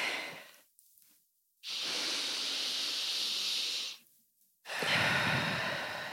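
A person breathing in deeply as a demonstration: a long, steady, airy breath of over two seconds, a brief pause, then another strong breath running to the end, with no talking.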